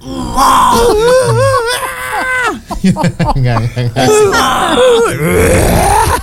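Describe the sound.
A voice imitates a baby's growling, gravelly cry: loud, drawn-out wavering moans broken by a run of rough grunting bursts in the middle, then rising into a strained wail again.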